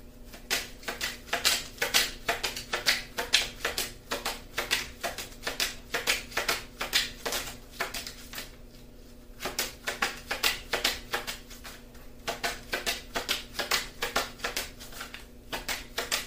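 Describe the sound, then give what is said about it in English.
A deck of playing cards being shuffled during a card trick: dense bursts of rapid crisp flutter and clicking, repeated many times with a short break midway, and no voices. “I'm shuffling the cards again because I didn't like the way that they broke at the time. So, doing it again.”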